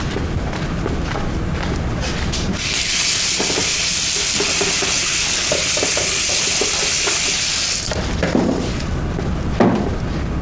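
Food sizzles and fries in a kitchen, a loud steady hiss lasting several seconds in the middle, with softer clatter of stirring before and after it.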